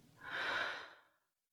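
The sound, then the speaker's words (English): One deep, slow inhale during a guided relaxation exercise: a soft, airy breath that swells in, peaks midway and fades to silence, with no other sound around it. “Take a deep breath in”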